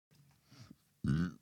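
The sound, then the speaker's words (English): A single loud, low burp bursts out after a few soft breathy sounds and lasts under half a second. “Yeah, of course I burped.”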